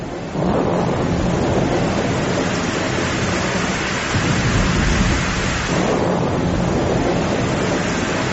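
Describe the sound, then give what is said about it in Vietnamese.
Heavy rain pours in a steady, loud roar during a thunderstorm over a forest on Mount Lu, with deep thunder rumbling beneath it and swelling near the middle, continuous for the whole clip. “Sao tự nhiên trời nổi sấm chớp mưa vậy?”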